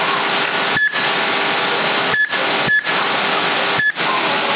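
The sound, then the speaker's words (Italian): Short electronic beeps from a CB radio receiver as the channel is changed. Four brief high tones sound at uneven intervals, each with a momentary cut in the loud, steady hiss of radio static. “Come questo bip? Ha fatto l'aggiornamento di Midlax Vital, che quando premi che cambi canale si fa bip bip bip bip.”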